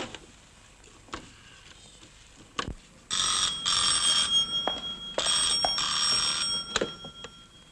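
A telephone rings in a Cantonese film scene, sounding in two loud double bursts of jangling bell tone separated by a short gap, with a few faint clicks before the ringing starts.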